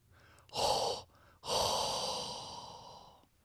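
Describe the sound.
Heavy, hot breathing: a short, loud, breathy huff, then a long, forceful exhale that slowly tapers off, both rising out of faint background hiss.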